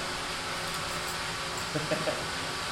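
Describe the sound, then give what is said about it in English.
A blender runs in the background, giving off a steady, faint whirring drone that holds even throughout, with a few soft brief ticks near the end. “I hear the blender in the background.”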